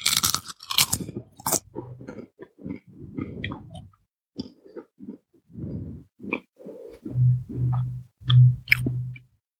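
Crunchy chewing on a root vegetable, a sweet potato or parsnip, with many loud, irregular bites and crunches that grow heavier toward the end, with no talking.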